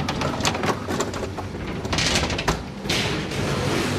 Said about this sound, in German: Jetzt fährt hier offensichtlich die Maschine rauf. Es sieht ein bisschen wie ein Schrank aus Metall. Wo sind wir jetzt da? Was ist das für eine Maschine? Also das ist eine Kabine zum Vordetachieren.